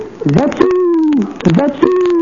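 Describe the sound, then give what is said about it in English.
A voice imitates the call of the speckled question bird in two cooing phrases. Each dips low, then settles into a long, steady held tone. “The speckled question bird usually says,”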